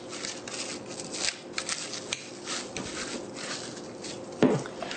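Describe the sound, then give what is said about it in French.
Crinkly rustling of plastic film being stretched over a filled food container before freezing. A continuous rough texture with a few sharper crackles, the loudest burst near the end. “Et ensuite, je vais recouvrir d'une pellicule de plastique. Alors, une fois que c'est fait, c'est important de recouvrir.”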